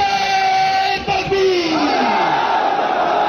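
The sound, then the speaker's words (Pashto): A crowd chants slogans at a peace gathering in Sadda, Kurram: a loud, sustained chorus of many voices yelling together, with a brief dip before the chanting resumes. “دا نارې د کورمې په صده کې د امن په سوم په نوم وستل شوي د یوې غونډې پر وخت وهل شوې.”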